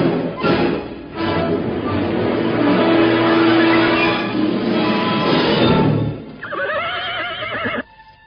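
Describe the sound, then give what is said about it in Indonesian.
Hoofbeats of two horses galloping closer, a dense, loud, continuous drumming that holds for several seconds before a horse whinnies near the end. “Pada saat itulah terdengar derap 2 ekor kuda semakin lama semakin dekat.”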